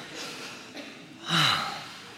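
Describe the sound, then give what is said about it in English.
A worship audience takes a deep breath together: a soft, airy inhale swells midway into a brief, louder sigh-like rush, then fades back into quiet room noise. “Whew, take a breath. Let's do that together.”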